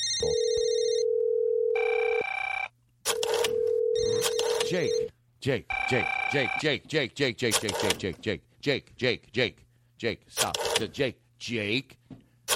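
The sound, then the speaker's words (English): A British telephone ringing tone sounds as two long, steady tonal rings separated by a brief pause, followed by voices talking over quieter tone fragments and a few more short bursts. “British phones have a different tone when you call them.”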